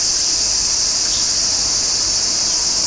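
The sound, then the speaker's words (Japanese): Cicadas sing from the trees in a loud, continuous high-pitched buzz that holds steady without a break from start to end. “セミの声だね。”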